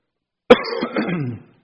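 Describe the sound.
A sharp cough breaks into a rumbling throat clearing, set off by a tickle in the throat; one loud burst then a rough, gravelly tail, alone with no speech.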